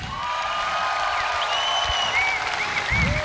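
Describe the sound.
A concert audience applauds as a band member is introduced, with steady dense clapping running throughout and some faint tonal sounds mixed in.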